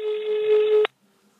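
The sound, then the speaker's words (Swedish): A telephone tone sounds as a call is placed to an expert. It is a single steady electronic tone of just under a second that cuts off abruptly into near silence. “Ska vi ringa upp en expert på området? Ja, men det gör vi.”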